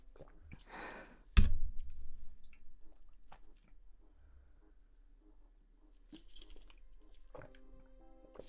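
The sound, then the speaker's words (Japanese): Last sips of sake being drunk: a short soft slurping rush, then a sharp knock, followed by quiet with small faint wet sounds. “そろそろお酒の方もあと2口くらいなのでもう飲んじゃいたいと思います”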